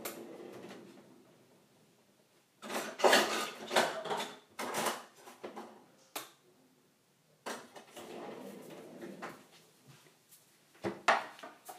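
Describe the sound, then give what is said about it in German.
Quiet kitchen clatter as a cutting board and a sharp knife are fetched while preparing a lime and cane-sugar drink, with many uneven knocks, rattles and scrapes separated by short lulls. “Ich hole jetzt noch ein Brett. ein scharfes Messer.”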